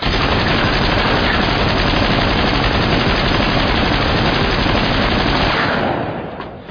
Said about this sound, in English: What the fuck was that? Well, that was the Bring gun. If you fire that gun again, you're a dead man.